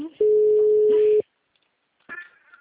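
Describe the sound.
Telephone ringback tone after dialing a call: one steady, pure, mid-pitched tone lasting about a second, then silence, then a brief voice.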